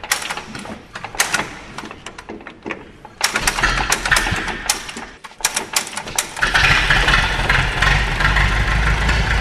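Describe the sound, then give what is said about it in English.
Old petrol engine being hand-cranked with the fuel on and choke set: irregular clattering knocks of the cranking give way to louder firing, then the engine catches and settles into a steady, loud, low running chug. “So first I've just turned on the petrol, put the choke on, now I've just got to crank it over.”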